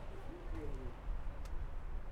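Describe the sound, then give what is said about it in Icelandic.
Pigeons coo in a town square, a brief low warbling coo rising over steady background rumble. “stóð ég á miðju torgi og beindi hljóðupptökutæki af dúfum”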